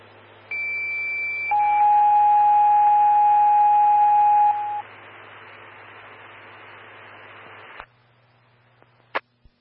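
Fire dispatch alert tones sound over a radio channel: a high tone for about a second, then a longer, lower steady tone for roughly three seconds. A hiss of radio static follows and cuts off with a click, then a sharp click near the end.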